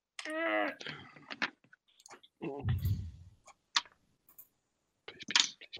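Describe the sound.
Dice rolled for initiative in a tabletop role-playing game, heard as a few brief, light clicking rattles between stretches of quiet talk.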